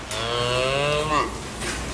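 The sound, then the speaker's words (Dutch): A calf moos in a barn on a farm: one long, loud, sustained lowing call with a strong, buzzy tone that holds steady, then tails off near the end. “Die 2 jaar staat dat kalfje, zeg onze kleine Puk, in een stal ergens anders op het erf.”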